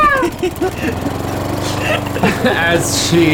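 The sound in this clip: A voice imitating a lawnmower, making a continuous buzzing, rattling drone like an engine, with some warbling variation along the way.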